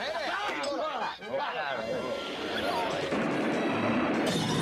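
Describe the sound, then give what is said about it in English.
A pile of glasses shatters on a saloon bar as the building shakes, giving a burst of breaking, rattling glass that spreads into a sustained crashing clatter. Voices talk over the noise. “The Trading Post shakes and Handlebar's pile of glasses shatter on the bar.”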